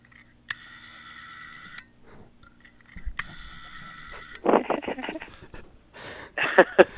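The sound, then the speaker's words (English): A brand-new, unused rotary dial from an old telephone is turned, giving two sustained mechanical whirring passes and then a run of quick, uneven ratcheting clicks. “it's the sound of a rotary dial. I found a brand new, unused rotary dial. It's a part from an old phone.”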